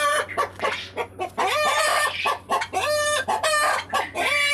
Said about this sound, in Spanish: las gallinas que tengo y los gallos que estamos criando con mi tata.